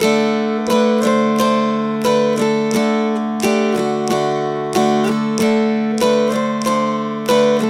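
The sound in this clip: Dulcimer playing the old-time tune Old Joe Clark, with some notes rushed in ahead of the beat: a steady run of many bright plucked and strummed notes over ringing drone strings, moderately loud and alone.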